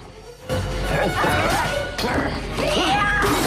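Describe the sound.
A lamp smashes over someone during a film fight, a sudden loud crash followed by dense scuffling noise and a second hard impact shortly after.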